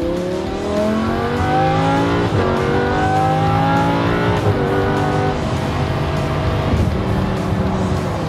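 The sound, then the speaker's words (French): A Ferrari 488 GTB twin-turbo sports car with 630 horsepower accelerates along a small mountain pass road, its engine note rising loudly through the revs with three clear drops at gear shifts. “je suis allé tester une F488, 488 GTB, Ferrari. Biturbo, ça bombarde aussi, hein.”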